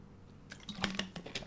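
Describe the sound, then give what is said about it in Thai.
Someone drinking water, heard as a faint, irregular run of wet swallows and small mouth clicks over quiet background hiss. “ไม่ไหวละขอกินน้ำก่อน”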